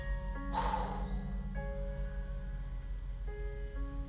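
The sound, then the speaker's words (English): One big exhaled breath, a single soft breathy rush lasting about half a second, heard over quiet sustained background music tones. “I want you to release it with one big breath.”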